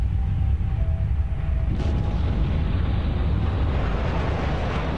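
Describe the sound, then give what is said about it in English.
Loud rocket launch into space: a dense, steady roaring rumble that is heaviest in the low end, with a brighter hiss joining partway through and holding to the end. “They put you in a rocket and shot you into space.”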